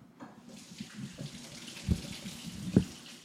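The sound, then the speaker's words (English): Tap water runs steadily while vegetables with roots are washed before chopping for a frying pan, a constant splashing hiss broken by two louder knocks late on. “let me wash some of these up and we'll get them chopped for the fry pan.”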